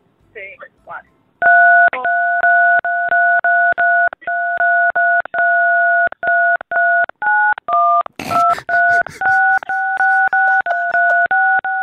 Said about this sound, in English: go ahead and play me some phone keypad Jingle Bells